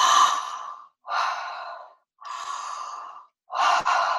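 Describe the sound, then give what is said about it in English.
Deep breathing during a connected-breath exercise: four long, loud, airy breaths, each lasting close to a second, separated by brief silent gaps. “we're going to go for 20 connected breaths now.”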